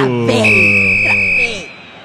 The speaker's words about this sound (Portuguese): Acaba esse jogo aí, juizão. Apita o árbitro.